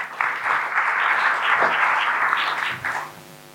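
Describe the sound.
Audience applause greets a speaker coming to the podium: a dense, steady wash of many hands clapping that holds loud for about three seconds, then thins out and fades.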